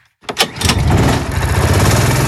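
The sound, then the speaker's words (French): An adult go-kart engine starts up at a leisure karting track in Beaucaire: after a brief silence, a few sputtering bursts catch into a loud, steady, buzzing roar that carries on to the end. “Ça, c'est le bruit du moteur à l'allumage d'un karting adulte à partir de 14 ans.”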